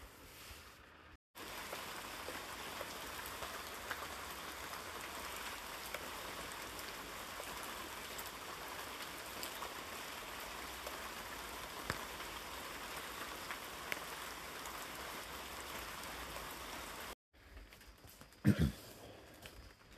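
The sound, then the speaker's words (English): Heavy rain from a tropical storm pours down as a loud, steady, dense hiss for most of the stretch before cutting off abruptly near the end, leaving a faint quieter background. “I don't know how well you can hear that, but that's the sound of Tropical Storm Ophelia, which is currently above my head.”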